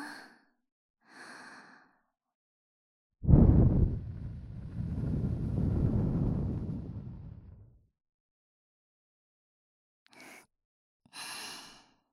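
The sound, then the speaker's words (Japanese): Breath blown into someone's ear: one long, loud, breathy gust of about four seconds that starts sharply and slowly fades, with brief soft breathy sounds before and after it. “息吹くからびっくりせんでよ。せーの。”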